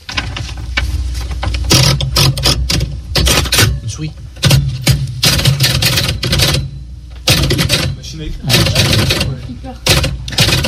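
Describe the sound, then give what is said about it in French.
Typewriter typing on an old manual machine: many rapid, loud mechanical clacks in dense, irregular bursts with brief pauses between runs of keystrokes. “Ah non, c'est une machine à écrire. Ah oui. Effectivement, on n'entend plus ça.”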